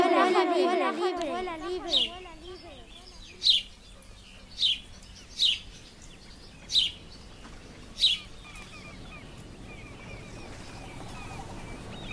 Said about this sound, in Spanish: El pájaro vuela libre.